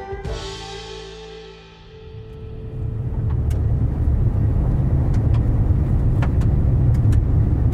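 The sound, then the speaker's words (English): Car driving down a bumpy gravel road in southwest Saskatchewan, heard as a loud, steady low rumble with scattered sharp ticks and pings of stones against the vehicle. “I'm driving down a bumpy gravel road in southwest Saskatchewan.”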